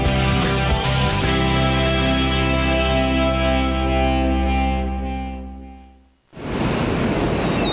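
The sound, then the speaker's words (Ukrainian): Stormy sea surf rolls as a dense, steady roaring wash layered with sustained musical drone tones. The sound fades out near the end, then a fresh burst of surf noise begins. “Моряки розказують, що 9-й вал – найнебезпечніша хвиля у шторм.”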